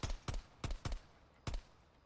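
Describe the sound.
Five sharp pistol shots fired in a video game, coming as crisp, punchy bangs in an uneven rhythm, with the last one after a short pause.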